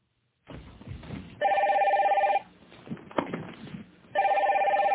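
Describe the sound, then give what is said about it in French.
Telephone ringing in two loud, steady trilling bursts separated by a pause of rustling and footstep-like noise, sounding just before the call is answered. “Écoutez Mireille qui répond au téléphone”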